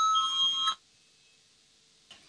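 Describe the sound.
A bell sounds in a parliament chamber to call a vote, giving one sustained electronic ring of under a second. Near-silence follows, broken by a soft click.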